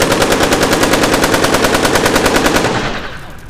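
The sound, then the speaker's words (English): Rapid gunfire as a gun is emptied into a generator: many loud shots in a fast, steady, machine-like rhythm that holds for nearly three seconds, then breaks off and trails away. “All right, shoot it. Unload all the bullets.”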